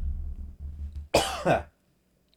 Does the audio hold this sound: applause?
no

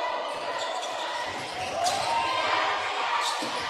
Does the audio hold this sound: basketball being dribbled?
yes

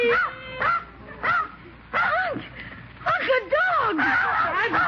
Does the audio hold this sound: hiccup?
no

